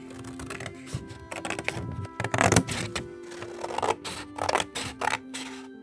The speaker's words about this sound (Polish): Żeby było mi łatwiej znaleźć środek, to zaginam sobie kartkę i wycinam.